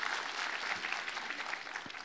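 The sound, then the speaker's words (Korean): An audience applauds during a church worship service, dense steady clapping from many hands that stays loud and even for the whole brief stretch. “우리 하나님께 감사와 영광의 박수 올려드리겠습니다.”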